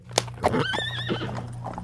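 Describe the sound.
A horse pulling a carriage whinnies loudly in a wavering, tremulous call, just after a couple of sharp hoof clops, with the horse being turned onto a side path.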